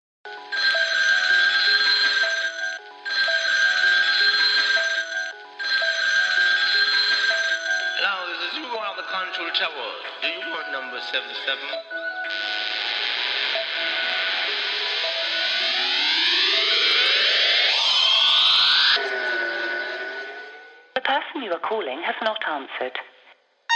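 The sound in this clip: A telephone rings as a call is placed, with three long, bright ring bursts separated by short gaps, followed by a stretch of warbling, shifting electronic tones.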